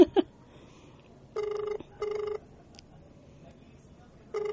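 Ringback tone of an unanswered phone call: two separate bursts of steady electronic ringing, then a third burst starting at the end, with quiet gaps between them and a short click at the very start.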